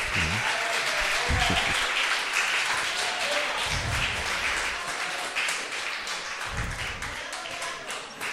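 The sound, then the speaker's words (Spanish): Audience applause for a woman who has just graduated in pedagogy: continuous, crackling clapping that holds steady and then eases slightly toward the end, with a few dull low thumps beneath it. “Le damos un aplauso, ¿verdad?”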